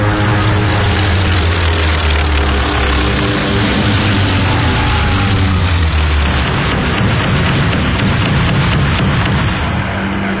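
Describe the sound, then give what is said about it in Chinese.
A torpedo bomber's propeller engines drone loudly as the aircraft takes off and dives, a thick, continuous roar with rumbling low harmonics whose pitch shifts partway through. “首先起飞的是第八鱼雷轰炸机中队。”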